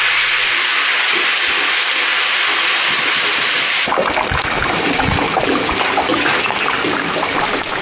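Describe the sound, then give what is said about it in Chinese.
Home-made pork fat frying in rapeseed oil gives off a loud, steady sizzling hiss that turns into denser crackling partway through. “放一点自家杀猪留下的肥肉，混着菜籽油一起炒到金黄，还要加入半碗自己秘制的辣椒酱。”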